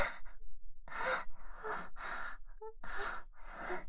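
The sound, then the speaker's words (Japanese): A person crying while eating, with loud, ragged gasping sobs. They come as a rapid series of breathy bursts separated by brief catches of breath, and no words are spoken. “いいえ、おいしくて泣いているのではありません。”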